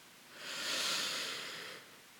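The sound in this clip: A single slow, deep breath drawn in, a soft airy hiss that swells over about half a second, holds, then fades away, heard alone with no talk.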